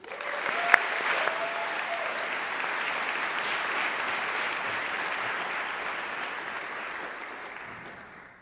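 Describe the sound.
Audience applause welcoming a speaker at a campus gathering, dense sustained clapping that holds steady for about eight seconds before tapering off at the end.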